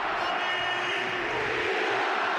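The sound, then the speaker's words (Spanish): A stadium crowd at an Atlético de Madrid match applauds and cheers a former player, a thick, steady wash of clapping and roaring voices that holds level from start to finish. “Mira el aplauso”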